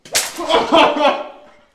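A whip strikes a person who is gagged and bound to a frame with a single sharp crack. A ringing, rasping tail follows and fades over about a second.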